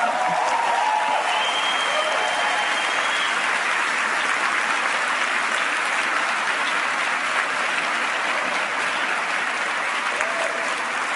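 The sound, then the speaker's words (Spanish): An audience applauding, a dense, even wash of clapping held at a steady loud level from start to finish. “Dale un aplauso a Estela, por favor.”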